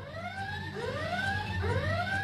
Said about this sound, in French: Vous avez actionné le buzzer.